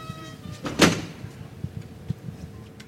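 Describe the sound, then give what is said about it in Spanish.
Cathedral doors opening onto a courtyard of orange trees during a Holy Week procession: one loud clunk is followed by a few faint knocks over a low, steady background. “Se están abriendo las puertas.”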